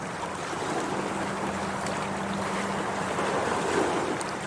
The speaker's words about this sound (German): nämlich Hamburg an der Elbe. Hier hören wir sie.